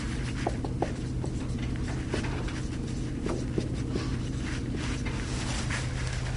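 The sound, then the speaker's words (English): The molecule name nicotinamide adenine dinucleotide is written out by hand, with soft, scratchy strokes and small taps at irregular intervals under steady background noise. “So let's write that out to make sense of it.”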